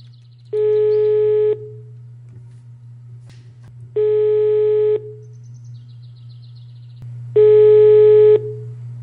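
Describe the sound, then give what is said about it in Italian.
Ringback tone while placing a phone call to someone in Robasacco: three even one-second tones at a steady pitch, spaced about three seconds apart, over a constant low hum. “provo a chiamare un altro membro di comitato che vive a Robasacco e si tratta di Antonella Bertolini.”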